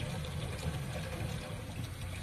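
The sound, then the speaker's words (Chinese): Water runs from a tap into a sink in a faint, steady, continuous hiss with no talk. “汪满春关掉水龙头，水池里血污犹未冲净。”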